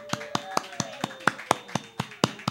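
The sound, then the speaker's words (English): Hand clapping to welcome a guest speaker at a book launch, eleven crisp claps at a steady, even pace. “So let's put our hands together and welcome again Dr. SerenaGaia.”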